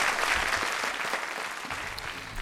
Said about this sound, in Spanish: Un aplauso.